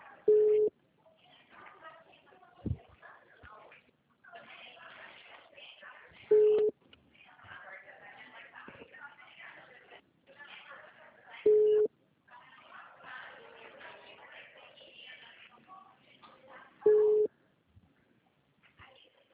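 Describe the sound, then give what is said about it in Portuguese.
Ringback tones from an unanswered phone call that goes to voicemail: four short, steady ring tones repeat at regular intervals, with faint background voices and noise murmuring between them. “Caiu na caixa, não atendeu não.”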